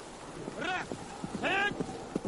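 Hooves of a knight's horse galloping in a medieval adventure film: rhythmic clip-clop thuds mixed with brief voiced cries, at moderate loudness.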